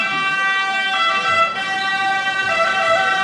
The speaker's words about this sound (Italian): ci mancava la sirena.